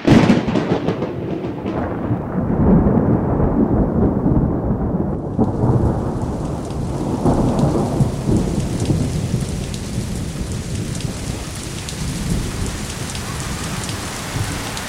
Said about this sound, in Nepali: यस चित्रमा देख्दछौँ कि परमेश्वरले 40 दिनसम्म लगातार आकाशबाट पानी बर्साउनुभयो।